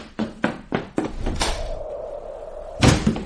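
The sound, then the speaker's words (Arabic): A door being opened in a radio drama: a few sharp knocks come first, then a heavier thump, a quieter stretch and a second solid thud near the end. “من بالباب؟ افتح يا ريحانة، أنا سفيان. حالا حالا يا سيدي حالا.”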